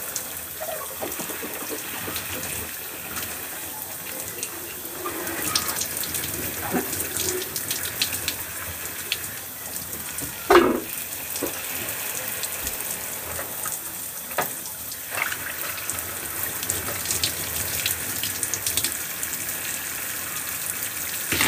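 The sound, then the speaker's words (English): Water runs steadily from a bathroom tap as washed items such as a face wash bottle are rinsed. The flow is a continuous hiss with a few small clunks and splashes, and no voices are heard. “I need to make sure to rinse off everything that I just use in my bathroom.”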